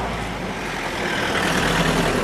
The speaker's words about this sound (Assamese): ৰ'বাচোন ৰ'বা, কেইখনমান গাড়ী আহিছে দেখোন।